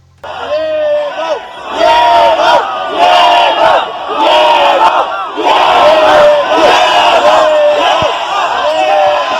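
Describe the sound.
A crowd roars a loud, rhythmic cheering chant, a porra used to open a show. Many voices shout repeated, tuneful phrases in unison, continuous and forceful for the whole stretch.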